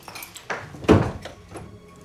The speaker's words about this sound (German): Er schaltet das Licht ein und schließt die Tür.